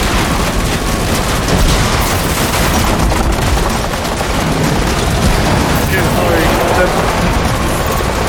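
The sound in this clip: Machine-gun fire from an M60 fed from an ammunition box, a loud, dense, continuous clatter of overlapping shots with heavy booming undertones that runs without a break from start to end.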